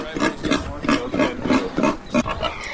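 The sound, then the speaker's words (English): Loud, rough grunts and squeals from a boar pig being driven down a farm alley, coming in many quick, rhythmic bursts one after another. “we need to go get the boar, run him down this alley, and she should come up and stand on the other side of the fence.”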